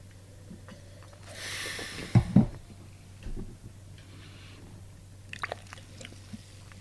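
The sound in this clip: Crisp biting and crunching into an apple during a blind tasting: two loud crunches close together, then a few faint chewing clicks over a steady low hum.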